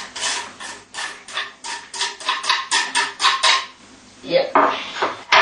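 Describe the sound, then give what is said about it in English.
A mixture with finely chopped onion being mixed in a bowl: many rhythmic clinking, scraping strokes follow one another steadily, then a short pause, then a few more strokes. “Now you mix it well. Yeah? Mix it well. You can use your finger, or you can use a chopstick. Just to mix it all together finely.”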